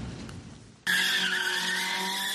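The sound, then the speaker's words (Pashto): Tires squeal as cars drift at a motor drifting competition in Kabul. After a low rumble, a loud, sustained high-pitched skid starts abruptly and holds steady to the end. “په کابل کې د موټرز غلاونې سیالۍ او نندارې تر سره شوې دي.”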